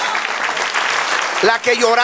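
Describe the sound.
A church audience applauds with dense, continuous clapping throughout, and voices call out over it in the final moments.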